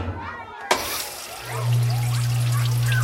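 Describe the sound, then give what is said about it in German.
Water rushing into a washing machine after a scoop of detergent is added: a sharp click, then a steady, loud flowing hiss over a low, constant hum. “So, eine Portion Waschpulver ins Fach und los, Wilma Waschmaschine.”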